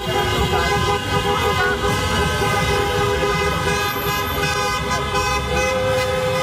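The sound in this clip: Car horns blare from celebrating football fans driving around Rotterdam after a World Cup match, a continuous, loud honking of steady tones layered over dense traffic noise.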